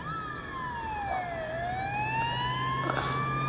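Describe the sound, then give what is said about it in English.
An ambulance siren wails at night, sweeping slowly down and then back up in pitch, steady and loud over a low engine rumble. “The flashing red lights of a second ambulance grow larger as it approaches.”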